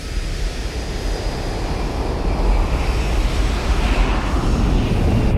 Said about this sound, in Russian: От звона падающей иголки до гула мощного двигателя самолета.